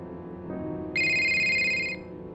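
A phone rings with an incoming call at two in the morning: one loud burst of bright electronic ringtone, about a second long, rising suddenly above a low steady hum and then cutting off.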